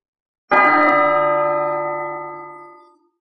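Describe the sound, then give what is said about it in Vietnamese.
Golden temple bell in a mountain temple struck once, giving a bright, rich ringing tone that rings on and fades out slowly over about two and a half seconds. “Tiếng chuông vàng rung trời từ trong một ngôi chùa trên Tu Di Sơn truyền ra”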